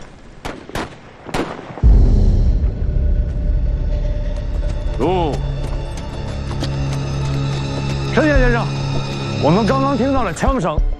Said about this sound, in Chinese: 我们刚刚听到了枪声，应该是我们派出去的斥候与敌人遭遇了